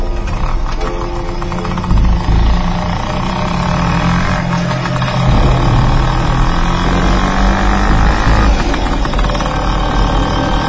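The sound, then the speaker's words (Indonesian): A motorbike engine runs with a steady, rumbling drone on a rain-wet road on the way home. Its pitch and loudness shift slightly throughout, and no voices are heard. “Setelah berpamitan, aku menyalakan motorku dan lanjut untuk pulang.”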